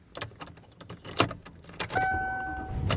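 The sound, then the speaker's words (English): Car sounds as the driver heads home: clicks, thumps and a jingle of keys, then a steady electronic chime holding two tones over a low rumble that grows louder. “And I am driving home. And I'm actually driving home for real today.”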